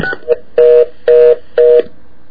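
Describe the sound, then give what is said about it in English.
Telephone keypad DTMF tones dial an area code followed by 666. A couple of short, quick beeps come first, then three identical longer tones at an even pace, loud and clear. “what happened was we dialed my area code followed by 666, and we automatically got a reorder.”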